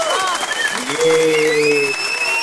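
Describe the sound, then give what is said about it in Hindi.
Applause sound effect on a Hindi-language radio show: steady, dense crowd clapping at a moderate level throughout. “आपके लिए तालियां. देखते हैं मेरा तालियां बजता है कि”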